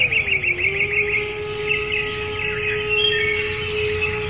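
Bird song from a golden bird in a told folk tale: rapid, high trilling chirps repeat early on over a steady held tone, then thin out, fairly faint.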